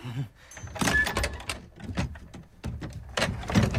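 An old sea chest is opened in a pirate's room, giving a series of wooden creaks, knocks and scrapes of uneven loudness, separated by short quiet gaps.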